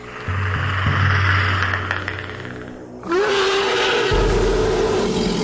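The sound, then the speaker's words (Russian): A deafening leopard roar rises out of a dawn forest: a steady, loud, deep rumble first, then a sudden louder swell of roaring that stays strong to the end. “на рассвете в чаще леса, раздался такой оглушительный рев, что листья на ветках задрожали и стали опадать”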